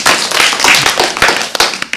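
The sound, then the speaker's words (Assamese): An audience clapping for a child's performance: a dense, steady patter of many hands, loud and continuous across the whole stretch, with a few sharper claps standing out. “কৃষ্টি কৃতাৰ কাৰণেও আমি কি কৰিম এতিয়া, হাত চাপৰি বজাই দিম।”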